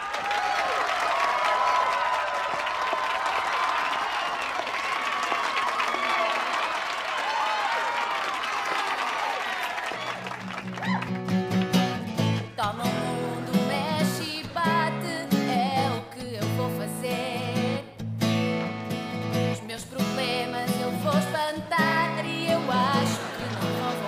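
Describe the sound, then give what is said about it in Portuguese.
An audience applauds with a crowd murmur for about ten seconds to welcome a live acoustic performance on a TV rock show, then the music starts and carries on for the rest. “uma salva de palmas”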